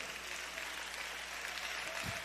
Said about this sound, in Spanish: Le da un aplauso al Señor.